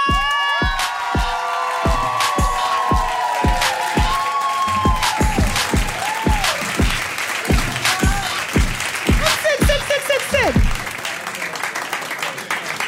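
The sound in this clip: Audience applause and cheering welcome a guest, with rhythmic, steady clapping throughout, shrill whoops and high cheers rising over the crowd, and a loud, continuous roar.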